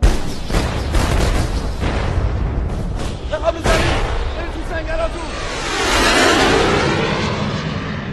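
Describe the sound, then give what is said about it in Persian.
Rockets fired from an Iraqi warplane explode in a few heavy booms and bursts over a sustained roar that swells toward the end, with voices heard alongside. “واسه سبک کردن هواپیما چند تا راکت فرستاد کرد.”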